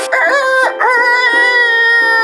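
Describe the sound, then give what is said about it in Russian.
A rooster crows loudly: a short opening burst, a brief break, then a long, drawn-out harmonic call that holds its pitch to the end. Wing beats are not clearly distinguishable. “Петух в третий раз затопал, крыльями забил.”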